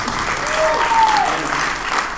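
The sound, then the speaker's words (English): Audience applause at a comedy show, steady and full-bodied clapping from a crowd of over a hundred people, with a brief whistle rising out of it near the middle. “And then we have 136 people in the audience, so give yourself a hand too for coming here.”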